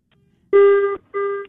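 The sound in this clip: An incoming telephone call rings with two buzzing electronic tone bursts. The first lasts about half a second, and the second starts after a short gap and is cut off. Both are loud and heard alone.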